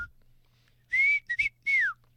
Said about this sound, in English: I can whistle like that, or I can whistle like this, or through my teeth.